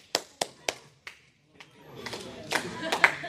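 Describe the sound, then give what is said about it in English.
Audience applause at a speech club meeting: four sharp separate claps, then a pause, then broader, scattered clapping that builds and grows louder toward the end, with some faint voices. “Big round applause to Steffi”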